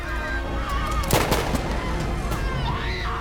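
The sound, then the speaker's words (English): Gunfire as a submarine crew shoots at people leaping into icy water, a short burst of sharp shots near the middle over a dense, noisy background. “People leap into the water and are shot by the crew.”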